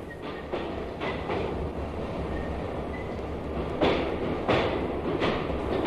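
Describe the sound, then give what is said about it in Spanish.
A train carriage rolls along rails with a steady, low rumble. Several sharp rhythmic clicks from the wheels punctuate the rumble, some spaced in quick pairs, and the sound holds constant throughout with no voices. “Y ahora viaja en un compartimiento del tren del norte”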